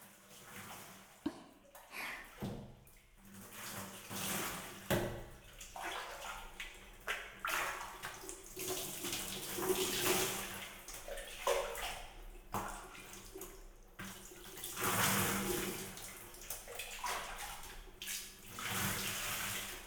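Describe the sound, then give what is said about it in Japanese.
Hot water is poured over someone's back at a hot spring, a series of uneven splashing pours and trickles that swell and fade repeatedly. “まずは軽く掛け湯をしてから温泉を楽しむとしましょうか。背中の方から流していきますね。”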